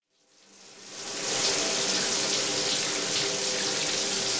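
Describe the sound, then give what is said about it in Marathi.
Water runs steadily from an overflowing tank, swelling up over the first second or so into a loud, continuous, hissing rush that holds unchanged to the end. “अरे अर्धा तास झाला पाणी वाहतंय, टाकी बंद कर.”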